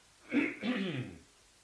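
A single cough-like throat clearing, a short rough burst of about a second that starts sharply and trails off, heard alone with no talk.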